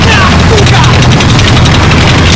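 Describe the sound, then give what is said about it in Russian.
Loud war-film battle noise as machine-gun fire mows down German infantry and a bundle of grenades is thrown at an approaching tank: a dense, roaring wall of rapid gunfire and booming blasts throughout. “Пулеметная очередь выкашивает немецкую пехоту. Манягин, поднявшись, бросает связку гранат в приближающийся танк.”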